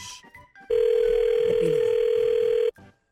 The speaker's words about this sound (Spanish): Ahí estoy marcando, loco.